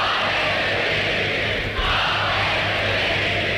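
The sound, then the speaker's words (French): Peers of the realm shout in massed acclamation of Queen Elizabeth II at her coronation. The loud, sustained roar of voices has a brief dip about halfway through. “Acclamant Élisabeth II, les pères du royaume ont coiffé leur coronette.”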